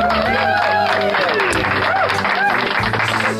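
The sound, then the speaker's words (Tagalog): A group of people claps and cheers, with steady clapping mixed with excited voices and shouts throughout. “Palakpakan naman dyan.”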